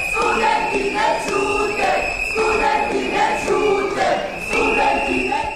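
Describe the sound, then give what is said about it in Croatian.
Students whistle and chant at a city assembly in Niš, southern Serbia, during a public debate. A dense, loud crowd roar with a shrill whistle tone that runs throughout and swells of shouting voices rising and falling. “Buka pištaljki i skandiranja studenata nadjačali su govornike u Skupštini grada Niša.”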